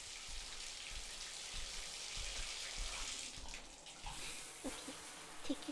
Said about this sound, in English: I hope you like hot showers. Can I wash your hair? Okay, here I go.